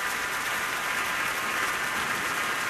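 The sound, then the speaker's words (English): A standing ovation for a piano soloist at a Minnesota Orchestra concert in Orchestra Hall, with orchestra members clapping too: dense, continuous applause from a large audience, steady and loud throughout. “the audience back standing again for another ovation, and members of the orchestra are clapping as well”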